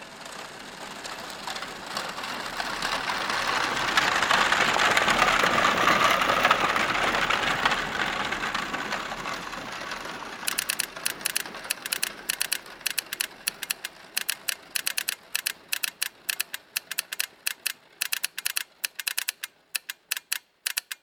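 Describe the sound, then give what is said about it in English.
Mechanical freight transport machines running: a broad whooshing hum swells to a peak and then gives way to many rapid, irregular clattering clicks that continue through the second half. “Behold, the swelling ranks of the mechanical freight transport machines.”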